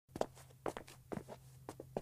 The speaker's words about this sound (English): So we're walking now down towards our drawing room, and it's in this room where our suffrage meetings took place.